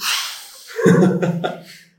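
A person takes a quick, breathy inhale, then after a short pause makes a brief voiced sound. The whole thing is close and clear, ending in silence.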